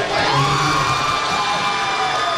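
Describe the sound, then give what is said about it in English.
Football fans cheer at a bar watch party for the World Cup draw in East Downtown Houston, a loud, sustained crowd roar studded with whoops and yells. “fans packed Little Woodrow's Bar in East Downtown Houston, cheering as their favorite teams were assigned to a group”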